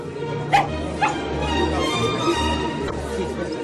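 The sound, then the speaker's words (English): Small dog barking: a few sharp, high yaps and whimpers rise above a steady, murmuring background. “Lady Malinger carries that dog around as if it were part of her dress.”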